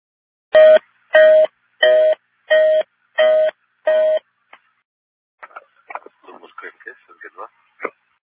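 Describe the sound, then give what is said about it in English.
Six identical steady test tones on a space station radio channel during a panel checkout, evenly spaced, each about half a second long, loud, mid-pitched and buzzy, followed by faint scattered crackles and bursts of radio chatter. “you may have heard those tones on Space to Ground 2. That is expected, as you might hear that going forward as Sergey is doing his panel checkout”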